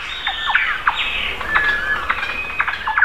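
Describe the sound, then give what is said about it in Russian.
Caged pet birds call back and forth with many short, sharp, high chirps and squawks in an irregular rhythm, fairly loud above a faint steady hiss. “Потому что они сидят в клетке, им одним скучно, и они начинают понемногу переговариваться. Допустим, пытаются докричаться до своих сородичей”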